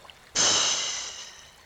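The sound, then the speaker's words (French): A single forceful breath of air during a guided chakra meditation, starting abruptly as a loud airy rush and then slowly fading away over about a second. “Inspirez, soufflez.”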